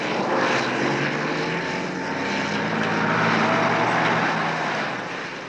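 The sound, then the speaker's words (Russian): Several vehicles, a bus among them, drive up with a continuous, loud engine drone that holds steady and swells slightly near the end, with no voices. “На земле лежат бревна. К ним подъезжает несколько машин.”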